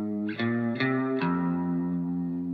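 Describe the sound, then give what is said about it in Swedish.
A Greco electric bass plays high up its neck, doubling a riff in a song mix. Three clear plucked attacks come in quick succession, then a long, shimmering, chorus-like sustained tone rings on alone. “Den är dubbad med en elbas som spelar i ett högt register för att vara en elbas, som låter så här.”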